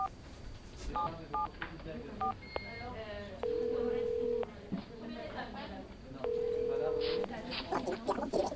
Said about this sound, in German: Lass mich jetzt ganz kurz einen Anruf machen. Einen Anruf.